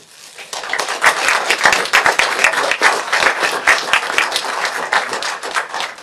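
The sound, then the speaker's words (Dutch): Brief applause at a farewell meeting for a departing member: a room of people clapping loudly and steadily after a quiet start, the claps dense, crisp and irregular throughout. “Ik stel voor dat we zo even kort applaudisseren.”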